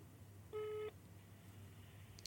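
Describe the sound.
A single short, steady telephone ringing tone while a call is being placed, one faint mid-pitched beep lasting about a third of a second over low background hum.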